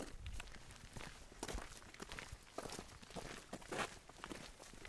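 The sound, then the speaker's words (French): Footsteps of people setting off on a walk beside a salmon stream: many quiet, crunching steps in an uneven, overlapping rhythm that continues throughout. “On commence à marcher? Oui.”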